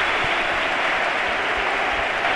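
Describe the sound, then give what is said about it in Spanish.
Crowd ovation in a football stadium for the team captain carrying a trophy: a dense, steady roar of applause and cheering that holds at an even, loud level through the whole stretch, with no separate claps standing out. “Con la estrella y con el trofeo, sobre todo ovación.”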